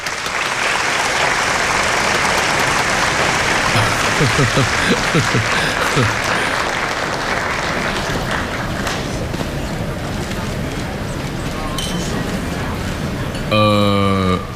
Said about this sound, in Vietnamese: Tiếp theo, chúng ta hãy cùng nhiệt liệt vỗ tay chào đón Trị Thiếu Gia lên sân khấu phát biểu đôi lời. Nhiệt liệt hoan nghênh.